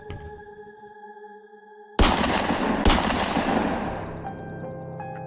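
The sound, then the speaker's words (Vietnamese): Two loud gunshots crack out about a second apart, each a sharp burst with a long ringing decay, following a steady tonal hum. “Bất ngờ, cô nghe thấy hai tiếng súng nổ đi đùng trên kia.”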